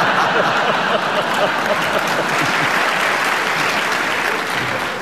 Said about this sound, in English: give you a point for it because the audience clapped